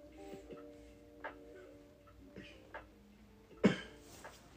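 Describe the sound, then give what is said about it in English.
A few faint, short coughs come at uneven intervals, the last one sharper and louder than the rest, over a quiet steady hum. “I'm gonna cough all out here.”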